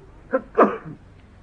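A single human sneeze, heard during a lecture: a short sharp intake, then a louder explosive burst that trails off quickly, alone against a quiet background.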